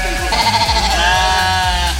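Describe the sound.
A sheep on a farm where sheep are shorn lets out a drawn-out, wavering bleat, loud and nasal, over a low background rumble.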